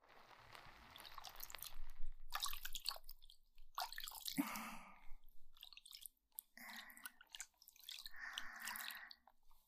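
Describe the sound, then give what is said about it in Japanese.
Wet, squishy rubbing and soft crackles from an ASMR ear massage. Irregular bursts of close, moist texture come and go with short pauses, and no one talks. “そしたらお耳のマッサージ。”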